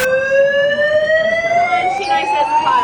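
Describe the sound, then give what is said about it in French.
A fire alarm wails in a radio morning-show studio during a fake fire alarm prank; one loud, continuous electronic tone slowly climbs in pitch throughout. “Deux animateurs du morning show l'ont bien compris, en live et en vidéo aussi, réaliser un canular avec une fausse alerte incendie et en faire des tonnes.”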